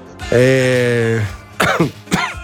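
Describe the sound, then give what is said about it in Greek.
Coughing: a sustained voiced sound followed by two short, rough, forceful bursts, moderately loud. “συμπαθάτε με για το βήχα.”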